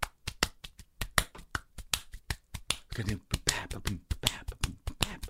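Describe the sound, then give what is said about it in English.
Hands clapping out a swing beat: many crisp, sharp claps in a steady, lilting rhythm with uneven long-short spacing, loud and dry, carrying on without a break. “he was just trying to do, like, make an example of a swing beat, and he did it with his hands. He clapped in a certain way”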